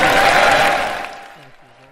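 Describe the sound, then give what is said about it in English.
Crowd applause after a presidential speech: a dense, loud patter that holds for about a second, then fades steadily, with a man's voice starting to speak as it dies away. “you can hear the applause in the background continuing”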